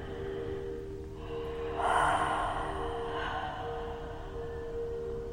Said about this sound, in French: Une expiration franche.